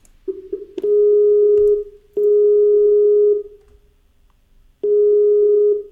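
Telephone ringing tone on an outgoing call: a steady single-pitch electronic tone repeating in a few long beeps of about a second each, separated by short silent gaps, with no voices.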